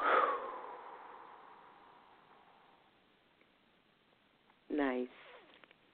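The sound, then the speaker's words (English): A slow, deep breath out during a guided breathing exercise, a soft airy hiss that gradually fades over about three seconds, followed by a brief voiced sound. “Breathe in one more time and breathe out.”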